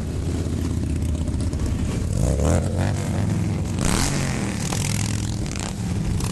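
Thousands of motorcycles, some 9,000 riders in a memorial rally, rumble through Washington DC. A continuous low engine roar swells with revving surges, with scraping and clattering on top.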